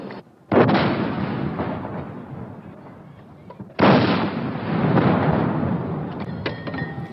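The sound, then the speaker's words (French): Artillery cannon fire from a 21-gun salute by a Melun artillery regiment in Paris, 27 May 1974, marking a new French president: two loud booming blasts, each trailing off in a long rumbling decay. “Coup de canon le 27 mai 1974 sur l'ORTF.”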